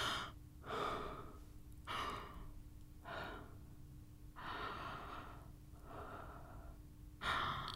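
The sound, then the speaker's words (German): Slow, deliberate breaths in and out, soft airy rushes repeating about once a second or so, each a gentle hiss with quiet gaps between, and no speech. “Einatmen, ausatmen. Mein Atem streicht an meinen Stimmlippen vorbei.”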